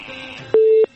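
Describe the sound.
A telephone line connecting for a call-in: one loud, steady electronic beep lasting about a third of a second, set against a faint low background murmur.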